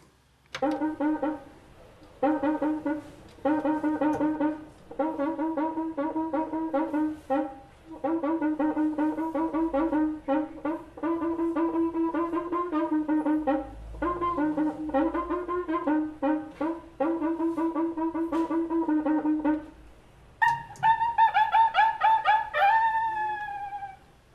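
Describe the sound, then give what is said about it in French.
Squeaking, howl-like strokes of a cuica, a drum-shaped friction drum whose long iron rod inside is rubbed. Many quick tonal strokes come in a steady rhythm with bending pitch, ending in a higher, sliding passage. “c'est sous la forme d'une batterie, mais dedans il y a une grande manche en fer et en le frottant, vous entendez ça.”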